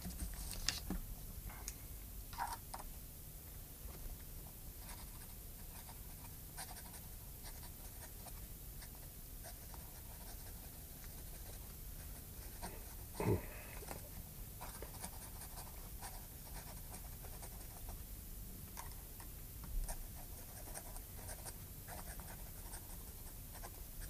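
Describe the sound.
A last letter to a mother is handwritten in a cell, with a pen scratching faintly and steadily across paper, broken by a few slightly louder taps.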